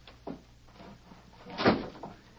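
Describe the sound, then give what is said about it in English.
A door being closed: a faint bump, then a single muffled wooden thud as it shuts, quiet and brief. “Close that door.”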